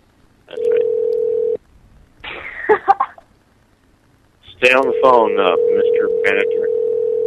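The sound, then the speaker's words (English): Telephone dial tone during a redial: a steady, even tone sounds for about a second, then breaks off for a short stretch of brief sounds. The tone returns and holds to the end, with voices talking over it. “Let me try it. Let me redial.”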